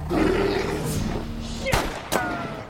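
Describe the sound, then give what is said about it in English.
A gunshot fired at a bear: sharp, loud cracks, apparently two, cut through a continuous low rumbling background near the end. “He spins, sees the bear, and shoots.”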